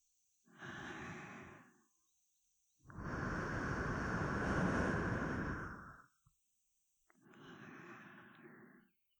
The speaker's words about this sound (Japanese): お主の耳に息を吹きかけてやろう。可憐な神様の息吹で、天国へと飛んでいくがよいぞ。